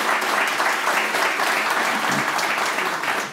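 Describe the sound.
Audience applause welcoming a guest to the stage: a dense, steady wash of many hands clapping that stays loud and even from start to finish.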